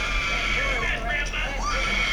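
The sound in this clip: A woman screams in shrill, wavering cries that rise and fall over a loud, steady low hum.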